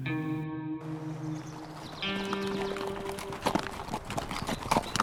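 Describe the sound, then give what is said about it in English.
Horses' hooves clip-clop as riders leave a trading post on horseback. The irregular hoof beats start faint and grow louder and busier toward the end. “Bearpaw and Morgan rode away from the trading post a short time later.”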